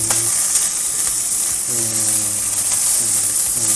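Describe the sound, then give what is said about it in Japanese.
Bacon fries in a pan with a loud, continuous crackling sizzle, steady throughout, with occasional soft stirring sounds. “ちょっと炒めます。はい、ちょっとベーコンを炒めますね。”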